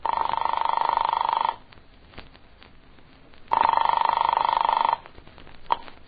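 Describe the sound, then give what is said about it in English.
An old rotary-dial telephone rings on the line with two long, even rings separated by a pause of about two seconds. A short, faint click follows the second ring. No turning of the dial is evident before the rings. “I flicked the telephone dial to the number in her note.”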